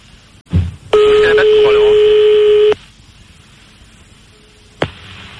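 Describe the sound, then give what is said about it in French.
A steady electronic tone on a phone line, from a fax machine picking up a call placed from a radio studio: one sustained buzzy mid-pitched tone of nearly two seconds, with a brief voice before it and a click afterwards. “Il a un fax? Il a mis le fax, le salaud.”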